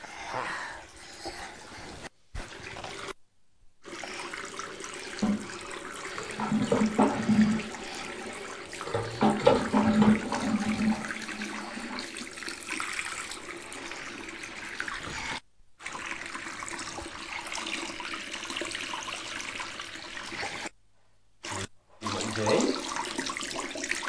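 Hands are washed under a running tap: a steady hiss of flowing water with splashes and shifting spatter as hands move through the stream. The flow is cut off briefly a few times.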